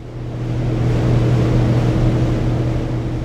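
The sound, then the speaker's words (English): A hydroelectric turbine roars in a massive dam powerhouse in Quebec, heard from underneath: a loud, steady droning hum with a low tonal whine, unchanging throughout. “This is the sound of standing underneath a turbine inside the Centrale Robert-Bourassa, a massive dam complex that is way up in the middle of Quebec.”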